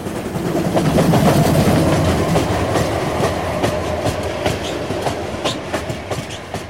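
Steam trains running on rails, a loud, steady rumble with many sharp, repeated clickety-clack beats from the wheels, heard without talk.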